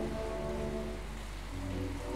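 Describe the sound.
Heavy rain falling outside, a dense and steady wash of hiss that stays even throughout with no voices.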